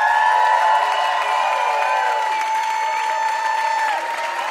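Audience applause and cheering for a special guest, a loud, steady wash of crowd noise with sustained tones running through it.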